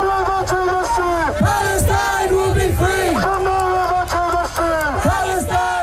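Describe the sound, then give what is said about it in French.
A large pro-Palestinian protest crowd in London chants loudly. Voices rise in short, repeated shouted phrases over a constant mass of noise. “On entend une manifestation pro-palestinienne qui a rassemblé de nombreux protestataires.”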